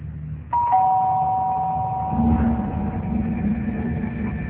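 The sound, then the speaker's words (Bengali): A doorbell rings when no one is at the door, giving a sustained two-tone electronic chime that starts suddenly and holds steady over a low background rumble. “আবার কে এলো এখন, আরে কেউই তো নেই, তাহলে calling বেলটা কে চাপলো?”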